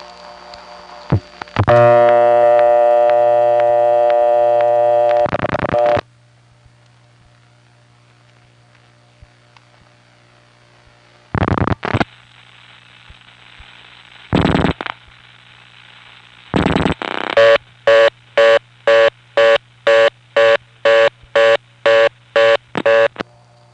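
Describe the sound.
A blocked level on a step-by-step telephone exchange in a 5-4 office gives a long, harsh buzzing tone, several brief clattering switch bursts, then a long run of evenly spaced, rapid on-off tone pulses.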